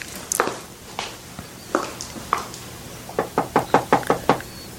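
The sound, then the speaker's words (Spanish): Soft knocking on a door on a dark, empty street at night: four scattered, hesitant knocks, then a quicker run of six light raps, all kept quiet. “Nadie podrá escuchar así como estás tocando. Es que si toco más fuerte, otros van a oír.”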